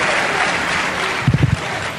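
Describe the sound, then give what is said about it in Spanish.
Audience applause, a dense, steady clatter of many hands, with a few low thumps near the end. “Gracias. Aplaudidme más.”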